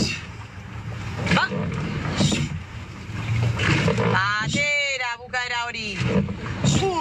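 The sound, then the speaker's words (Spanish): Women rowers train in rowing boats at Donostia, with steady water and wind noise throughout. Voices call out partway through. “Entrenamiento de las remeras de Arraún Lagunac en Donostia.”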